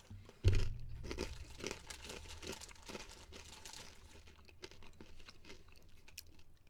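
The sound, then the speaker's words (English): Crunching of original Cheetos with a crinkling snack bag: a sharp rustle near the start, then many irregular crisp crunches and chewing sounds that continue at a moderate, fairly even level to the end. “the original Cheetos. We'll try these again.”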